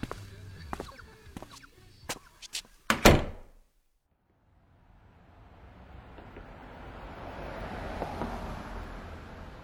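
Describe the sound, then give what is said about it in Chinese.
A door being opened by someone carrying armfuls of bags: a few light knocks and clicks, then a loud clunk, then a moment of silence before a steady rushing noise swells. “温小辉提着大包小包费劲儿地打开了门”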